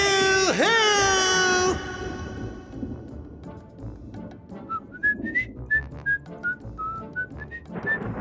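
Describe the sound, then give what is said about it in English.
Distant whistling: a series of short whistled notes that waver up and down in pitch, fairly faint. It follows a loud, drawn-out vocal call at the start. “Did y'all hear that? It sounded like distant whistling.”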